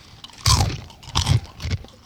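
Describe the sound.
Crunching of hard, crispy snacks made of 100% Gouda, Emmental and cheddar cheese, several pieces taken at once: three loud, crackling bites with quieter chewing between them.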